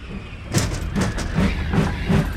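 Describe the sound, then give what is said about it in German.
A passing train gives a steady rushing rumble, with about five regular, low clattering beats of wheels on the rails and no voices. “der Zug!”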